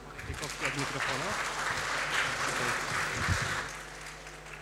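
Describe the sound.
Applause welcoming a team as it begins its presentation: steady, dense clapping sustained for several seconds, with voices mixed in beneath it.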